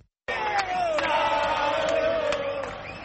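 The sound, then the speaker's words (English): Argentine football fans chant in unison to serenade Diego Maradona, a sustained mass of many voices singing a gliding melodic line. It is loud and steady throughout after a brief silent start. “In Argentina, fans of football icon Diego Maradona serenade.”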